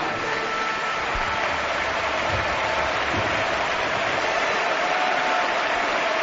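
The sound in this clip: Stadium crowd at Camp Nou applauding as Neymar leaves the pitch during a match against Atlético de Madrid: a loud, continuous wash of clapping and crowd roar.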